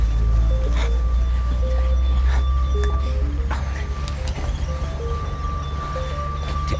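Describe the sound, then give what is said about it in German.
A direction-finding receiver picks up a transmitter signal inside a moving car: a steady high electronic tone runs throughout with short stepped beeping tones and faint clicks, over a loud, constant low rumble. “Das ist der Peilempfänger.”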